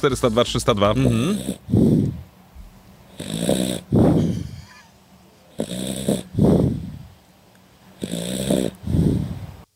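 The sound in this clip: A person snoring, recorded on a phone held very close: loud, rough, rasping snores repeat many times in a steady rhythm, with short quiet gaps between them.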